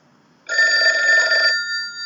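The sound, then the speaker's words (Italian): A telephone rings for an incoming call: a single bright, buzzing ring of about a second, rising sharply out of near silence and leaving a fainter ringing tail. “Telefonata, cioè. E rispondi, dai.”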